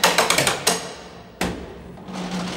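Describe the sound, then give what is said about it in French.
Sharp metallic taps of a metal sounding bar struck against prison cell bars to check for sawn bars. A quick run of several strikes is followed by a pause, then one more ringing hit that slowly fades. “On passe avec une barre de sondage. Et au niveau du son, ça s'entend quand un barreau a été scié. Hein. Ça sonne mat, oui.”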